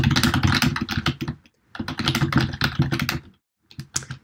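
Fast typing on a computer keyboard rattles out in three bursts of rapid key clicks, split by short silent pauses, with the last burst the shortest.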